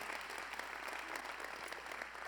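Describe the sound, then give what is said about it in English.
A church audience applauds to welcome online viewers with even, continuous clapping that stays at a fairly soft, steady level throughout without building or fading. “We have a lot of people joining us online today. I just keep seeing the list coming in. But would you welcome all those joining us online today?”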